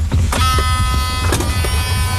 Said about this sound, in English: Electric car.